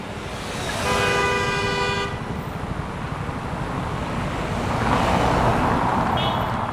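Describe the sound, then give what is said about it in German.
Engine and traffic noise on the Champs-Élysées in Paris, with scooters, cars and delivery vans making a steady, dense roar throughout. A sustained car horn toot sounds in the first part. “Motorenlärm. Das ist der Soundtrack der Champs-Élysées. 2 Kilometer schnurgerade Allee von der Place de la Concorde bis zum Triumphbogen. Motorroller, Pkw und Lieferwagen,”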